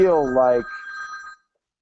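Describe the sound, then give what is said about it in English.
A mobile phone ringing with a short electronic ringtone: a brief melodic run followed by a steady warbling high note that cuts off after about a second. “I should have put that on vibrate anyway. Sorry, guys.”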